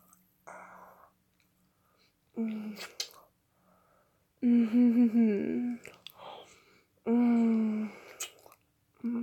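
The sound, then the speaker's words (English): Wet licking and smacking mouth noises as someone takes a lick, arriving in a few short bursts separated by quiet pauses, with soft clicks and low hummed vocal sounds over the louder stretches. “Maybe I just need to come down here and take a lick.”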